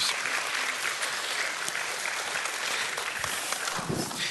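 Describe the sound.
Audience applause welcoming a guest speaker at a Sunday morning church service, a steady, sustained wash of many hands clapping throughout with no pauses.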